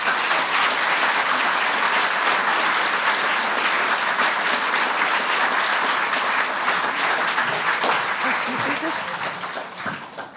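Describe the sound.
Applause from the audience welcoming speakers, including a novelist, at the House of Literature: dense, steady clapping that holds at an even level throughout and tapers off right at the end.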